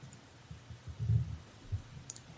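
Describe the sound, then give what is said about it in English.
Muffled keyboard typing as a word is entered into a chat room, soft low thumping key clicks in a short burst, with no one speaking. “I'll type it into the chat room, actually. So if you're in the chat room, you can see it.”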